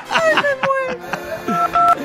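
Telephone keypad tones as a number is dialed: a few short electronic beeps, some steady and some sliding, closely spaced in a quick sequence.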